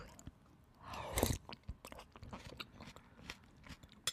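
Chewing on soup with grated ginger dissolved in it: a brief crunchy bite followed by soft, faint mouth sounds, with no talk.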